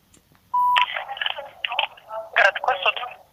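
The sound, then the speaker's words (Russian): Telephone dialing tones on a phone line: a short steady beep, then a busy run of bright, choppy electronic tones with brief gaps between them, fairly loud throughout. “Мы звоним. Опять.”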